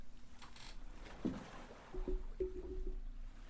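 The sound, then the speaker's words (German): A balcony door being shut: a squeaky creak, then a couple of clunks and short squeaking scrapes over a low background noise. “Ich muss kurz meine Balkontür zu machen.”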